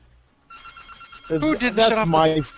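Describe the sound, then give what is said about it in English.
A mobile phone ringtone goes off when a call comes in: a thin tone starts first, then a busier melodic ringing pattern swells louder and keeps going. “That's my phone. Now my daughter's calling.”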